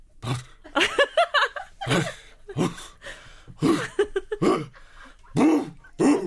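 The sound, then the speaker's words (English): A person vocally imitates a dog's soft warm-up cough before it starts barking: a string of short, throaty, voiced huffs and gruff grunts, repeated many times at an uneven pace, with nothing else around them. “sometimes a dog's lying and you see the ear go, it's heard something. Yeah. It'll sit up slightly, not all the way up, it just raises its head and start going,”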